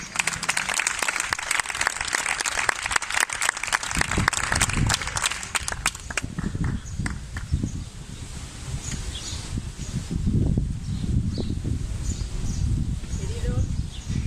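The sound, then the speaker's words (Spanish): Audience applause at a gathering in solidarity with Palestine. Dense, crackling clapping lasts about six seconds, then thins into softer rustling and low murmuring. “Un aplauso.”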